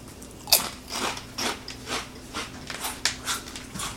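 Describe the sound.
Crunching of bunched-up Zapp's spicy snack chips as they are chewed: a steady run of many crisp, dry crunches about twice a second at moderate loudness, with no talking.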